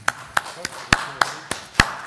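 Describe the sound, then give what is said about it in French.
Hand clapping at a workplace meeting: eight crisp, sharp claps from a pair of hands, evenly spaced in a steady, moderate rhythm, each a bright slap with a quick decay. “Tout à fait opportun, une main d'applaudissement.”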